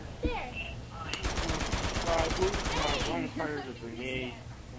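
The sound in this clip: Video game gunfire rattles out as rapid automatic fire, a steady burst of many shots lasting about two seconds, with people talking before and after it.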